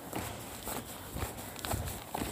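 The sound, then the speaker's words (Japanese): Faint footsteps walking along a road toward a hitchhiking spot near the Turkey–Georgia border, steps falling in an even, unhurried rhythm of about two per second. “ヘッチハイクポイントまで歩いていきたいと思います。”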